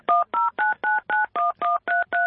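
Nine touch-tone dialing beeps come from a home landline telephone. Each is a short, steady dual tone, evenly spaced in a quick rhythm, with no talk.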